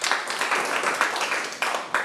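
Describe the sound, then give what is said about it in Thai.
A class of schoolchildren applauds at the end of a lesson on writing stories from pictures. Many hands clap in a steady, dense patter that stays fairly even for about two seconds, with a few louder bursts. “ปรบมือให้ทุกคนเลย”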